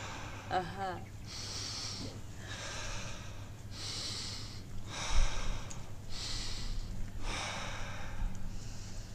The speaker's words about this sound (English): the secret is just to avoid making any pause. It's just continuing, you know, like inhaling, exhaling.